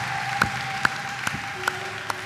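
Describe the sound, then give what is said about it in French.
Church audience applauding for the Lord, a steady wash of applause with a few regularly spaced sharper claps standing out from it. “Est-ce que nous pouvons acclamer pour le Seigneur?”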